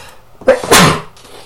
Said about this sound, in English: Oh, I got to sneeze.